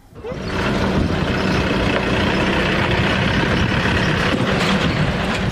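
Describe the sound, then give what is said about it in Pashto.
Steady roar of road traffic as trucks and cars loaded with household belongings travel the highway toward the Torkham border in Pakistan. The dense engine rumble rises quickly at the start, then holds loud and unbroken. “له اسلام آباد او راولپنډۍ څخه خیبر پښتونخوا او بیا تورخم خوا ته غزیدلی سړکونه نن سبا یو ځل بیا پر هغو لاریو او موټرو ډک دي چې د افغان کډوالو کډې پکې بار دي”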